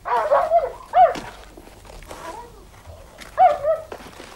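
A dog barks as a door onto a veranda opens: a few sharp, mid-pitched barks and yelps in two loud clusters, one at the start and one near the end, with quieter whines in between.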